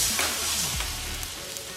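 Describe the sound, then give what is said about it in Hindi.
Fish pieces for Fish Amritsari sizzle in hot oil at medium heat, a steady bright hiss that stays fairly even and loud throughout the short clip, with no talking. “हमें evenly perfectly fish को अंदर तक cook करना है without burning it है ना तो इसका मीडियम में करते हुए ये फिश के पीसेस में डाल रहा हूँ”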